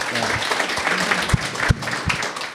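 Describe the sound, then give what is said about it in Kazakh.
Applause breaks out in a brief burst, dense overlapping clapping lasting around two and a half seconds, with a few sharper individual claps standing out. “негізі негізі шапалақ ұратын жағдай ғой”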